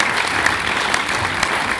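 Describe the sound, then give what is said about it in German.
An audience at a devotional gathering gives loud applause in appreciation of the prasadam meal: a brief burst of dense, continuous clapping with a few sharper claps poking out of the steady roar. “Also da gibt es erstmal einen riesen Applaus für das Prasadam.”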